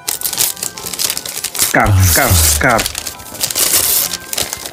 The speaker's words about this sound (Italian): No, però aspetta aspetta un attimo che devo fare il suono dello scartamento. Dello scatolo, lo scatolo.